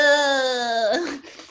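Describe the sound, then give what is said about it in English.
A human voice holds an exaggerated, nasal whine on a sustained pitch that dips slightly at the end, then breaks off into a short, rough, breathy sound. “That's a good whine you got there.”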